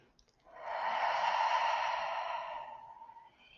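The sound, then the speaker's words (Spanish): Slow, deep breathing, in through the nose and out through the mouth, comes as one long, airy, hissing breath that swells and then fades over a couple of seconds, quiet and alone. “Inhala por la nariz y exhala por la boca.”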